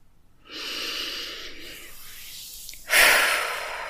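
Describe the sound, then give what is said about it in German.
Deep breathing in and out during a guided relaxation exercise: a long, airy inhale of about two seconds is followed by a louder, breathy exhale that fades gradually. No one talks. “Und ein paar tiefe Atemzüge zu nehmen. Ja, komm erstmal hier bei dir an. Atme tief ein und aus.”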